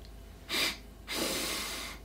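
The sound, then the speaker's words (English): Noisy breathing in through the nose: a short, sharp sniff followed by a longer, drawn-out hissing inhale, fairly loud and heard alone. “So if I breathe in from my nose, I've got to breathe for longer, and it's noisier in order to get the same amount of air”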